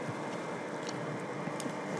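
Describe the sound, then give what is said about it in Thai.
Steady whirring of an electric mixer beating a thick batter, a continuous even motor drone with no breaks or changes. “ผมจะขออนุญาตใช้เครื่องช่วยผสมแล้วนะครับ”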